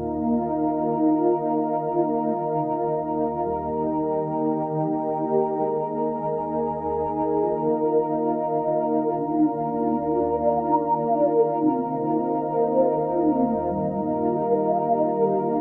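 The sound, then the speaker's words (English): Sustained harmonic tone passed through an EQ notch filter with randomly automated movement, giving irregular sweeps up and down across the sound, while soft low bass pulses recur at a slow, even pace underneath. “So what you just heard is that same exact thing, but I automated that notch on the EQ to be completely random. I just drew in random shapes, right? And so you were probably hearing like random sweeps in there”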